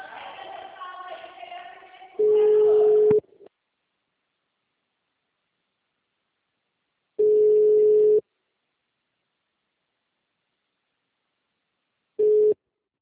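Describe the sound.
A telephone line tone follows a dropped call to a bank, after a short stretch of voice. Three steady beeps of about a second each come with long silent gaps between them, and the last beep is cut short.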